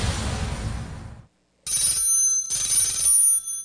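A telephone rings for an incoming call to a radio station request line: two bright, loud ringing bursts with a short gap between them, following a stretch of dense noise at the start.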